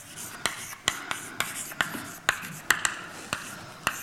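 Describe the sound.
Writing on a board during a mathematics lecture produces many crisp taps and short scratches at an uneven, steady pace, each tap sharp and clear against a soft hiss.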